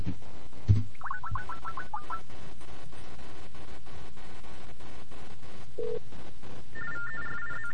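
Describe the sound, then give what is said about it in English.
A telephone call rings: a warbling electronic ring bursts early on and again near the end, heard over steady background hiss with a dull thump at the start. “that was the number you heard, or the call you heard right at the beginning of the show”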